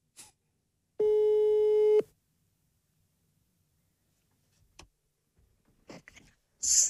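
A telephone tone heard while calling someone: one steady electronic beep lasting about a second, then quiet with a few faint clicks and brief rustling noises toward the end.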